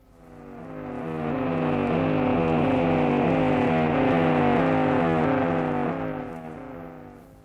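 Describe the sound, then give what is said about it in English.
A Russian radio jamming noise of the rotary type: a dense, loud, buzzing drone with churning, rippling harmonics. It swells in over the first second, holds steady, and fades at the end. “This one is known as the rotary.”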